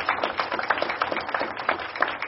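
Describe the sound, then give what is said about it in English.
Dense, steady audience applause fills the whole stretch at an even level, a crackling wash of many hands clapping together for the excitement on a university campus. “But let's give a big round of applause for all of the excitement going on campus right now so I can get my energy out.”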